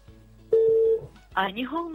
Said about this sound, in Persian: سیفالدینوف شرف جان زنگ میزنیم. زنگ میرود. الکه یک نشانه خوب است.